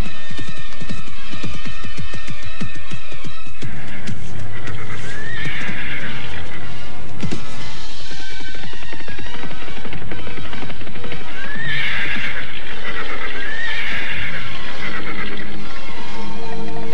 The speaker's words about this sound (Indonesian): Mengapa Ayahanda menghentikan kuda?